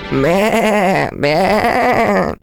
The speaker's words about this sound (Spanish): Poco después, pasó por allí un cordero que al ver a la ratita sintió deseos de casarse con ella.